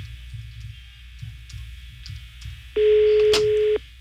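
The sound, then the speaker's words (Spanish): A telephone line tone sounds while a call is placed. It is a single steady beep lasting about one second that rises clearly above a low background rumble. “Vamos a marcarle otra vez a la chica de las pestañas.”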